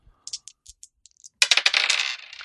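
Board game tokens being added: a few light, separate clicks followed by a longer, bright metallic clatter and rattle as the tokens settle.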